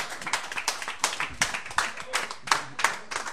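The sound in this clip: Audience at the Bodega applauds the band Willows, with hand claps falling in a quick, fairly regular rhythm, each clap a sharp, bright burst, moderately loud and without talk.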